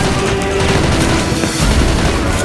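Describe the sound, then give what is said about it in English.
Gunfire and flying bullets during a chase through rubble, heard as a dense, continuous barrage of rattling shots with deep booming thuds partway through. The sound stays loud and steady from start to end. “They chase him through the rubble. Bullets fly through the air.”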